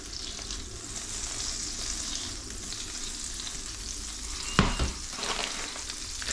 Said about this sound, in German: hört man schon ganz gut, wie die Butter hier schön auf Temperatur kommt mit dem Öl, schöne Blasen wirft.